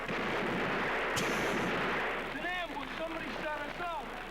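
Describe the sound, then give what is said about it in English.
Automatic weapons gunfire in a 1975 film forms a dense, continuous rattling roar. Partway through, a man starts talking over it. “they just bring out automatic weapons and kill everybody,”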